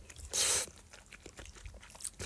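Eating fresh Morioka ramen noodles simmered until soaked in soup: one loud, broad slurping or crunching burst, followed by faint, scattered chewing sounds.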